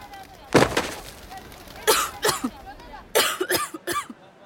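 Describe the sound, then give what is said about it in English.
Harsh, strained coughs and gasps from a woman struggling to breathe while being choked and lifted by one hand. A series of sharp, rough bursts with short pauses between them. “Bull reaches over Graezen's shoulder and chokes Tasha. He picks her up with one hand. Tasha kicks her feet as she struggles to breathe.”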